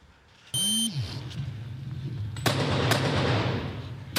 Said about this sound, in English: newly released body cam video shows an intense shootout last December.